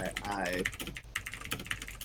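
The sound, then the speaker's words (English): Loud typing on a computer keyboard, a run of many quick, uneven key clicks, with a voice speaking over the first part. “would you mind not typing loudly whilst we're trying to talk, please?”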